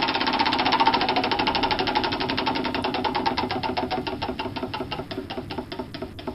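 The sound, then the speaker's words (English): Rapid ticking of a prize wheel spun for a morning ticket giveaway: many sharp, evenly spaced clicks that gradually slow and spread apart as the wheel loses speed, alone and fairly loud throughout. “So we're going to spin the wheel right now.”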